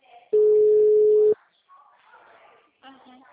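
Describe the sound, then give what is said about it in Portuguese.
A ringback tone sounds on an outgoing telephone call: a single steady, mid-pitched tone lasting about one second, followed by faint, muffled voices on the line. “Tá chamando.”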